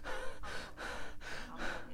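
Rapid, rhythmic panting breaths, like after a long run, done as a breathing exercise in a workshop, each forceful breath following closely on the last in a steady pulse with no talking.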